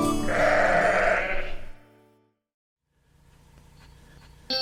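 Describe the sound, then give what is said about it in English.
A sheep gives one loud, wavering bleat with a strong harmonic tone, then silence and a faint low background hiss. “Baba Black Sheep, have you any wool? Yes sir, three bags full. Baba Black Sheep loves to share.”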